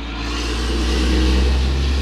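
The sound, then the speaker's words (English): A truck passing through a neighborhood gives a steady low engine rumble that swells slightly as it goes by, with no voices heard. “waiting for that truck to pass by.”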